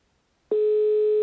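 A telephone line tone after a call is hung up: a loud, steady single-pitched hum that cuts in abruptly after near silence and holds unbroken to the end.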